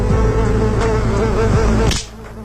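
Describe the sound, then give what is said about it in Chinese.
A housefly buzzes loudly in a steady, droning whine for about two seconds. The buzz then stops abruptly after a short sharp burst, leaving only faint hiss. “是苍蝇吗？ 是，还没打到。”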